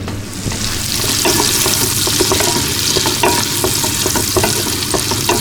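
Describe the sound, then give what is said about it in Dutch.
Onions fry in a pan, softening toward glassy, with a loud, continuous sizzle broken by repeated light scraping and stirring clicks, and no talking. “En de uitjes gooi ik er nu bij. Zo. Uitjes lekker aanfruiten.”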